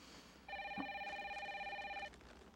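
An electronic telephone ring in a dubbed film scene sounds as a single sustained, warbling ring burst lasting under two seconds. It is fairly faint and stands alone, with no talk over it.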